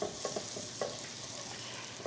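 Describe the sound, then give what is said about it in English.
Butter sizzles in a skillet as pieces are dropped in and coated on both sides, giving a steady frying hiss with a few sharp crackles and no talk. “we'll just drop both of these into the skillet. And we really want to get them coated with butter on both sides. And then, my favorite maneuver, drop in a little more butter”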